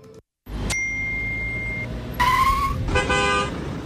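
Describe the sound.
Road traffic rolls steadily while a bright bell-like ding rings early, followed later by two sustained car horn blasts in quick succession. The horns are loud and clear, and no one speaks.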